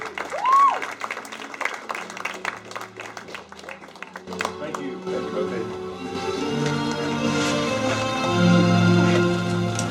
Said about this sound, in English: So I want you to give a warm NIAC welcome to Reverend Robert Collins.